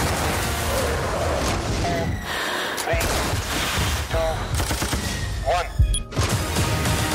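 Dense gunfire from anti-aircraft guns in a snowy battle scene in bad weather, heard as a continuous loud roar of rapid shots and booms that runs the full length without a break.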